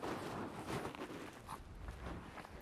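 Footsteps cross wet rocks in the woods as a few soft, irregular crunching steps, faint and uneven.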